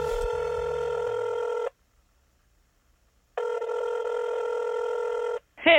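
A telephone rings as an outgoing call is placed: two long, steady ring tones separated by a pause of about two seconds.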